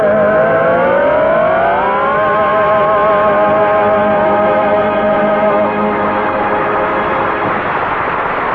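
A car engine revving as the car drives off into the woods. Its tone climbs in pitch over the first two seconds, then holds as a loud, steady drone.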